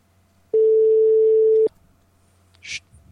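A telephone ringing tone plays as a call is being placed. It is one steady, mid-pitched tone lasting about a second, then silence broken by a short burst of hiss.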